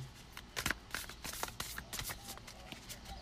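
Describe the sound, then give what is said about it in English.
A deck of self-care oracle cards being shuffled: quiet, rapid riffling and flicking clicks that come in a few uneven bursts, with no talk. “What we got here, what we got here, spirit. Looking for some cards for sacred self-care. Oh, got one.”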